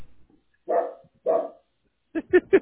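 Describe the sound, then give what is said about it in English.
A dog barks at an arriving delivery: two longer, fuller barks, then three quick, shorter barks in a rapid burst. It is moderately loud against a quiet background. “You're getting an Amazon delivery. That's why he's barking.”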